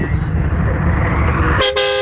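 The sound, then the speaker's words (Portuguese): A vehicle horn honks near the end, a steady, bright blast over loud, continuous road and engine noise from a construction-materials company driver out on the highway. “Aê, buzinado. Ao vivo”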